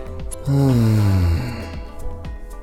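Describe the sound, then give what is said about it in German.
A loud breath out during a standing conscious-breathing exercise, heard as a sustained voiced sigh whose pitch slides steadily downward before trailing off into quieter breathing. “Ihr könnt euch einfach mal gerade hinstellen und 5-mal bewusst atmen. Also tief einatmen durch die Nase und dann laut ausatmen.”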